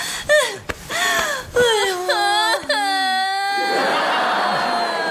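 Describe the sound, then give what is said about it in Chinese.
A woman crying: several wavering, wailing sobs that break and rise in pitch, mixed with gasping breaths. “您别哭了，都是他们不好”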